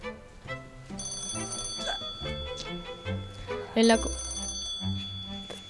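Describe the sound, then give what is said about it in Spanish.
A telephone rings at a small-town police station: bright, bell-like ringing with sustained high tones, mixed with other busy sounds. “Suena el teléfono.”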